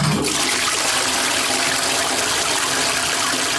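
A toilet flush sound effect: a loud, steady rushing gush of water that sounds continuously from start to end, with no talking.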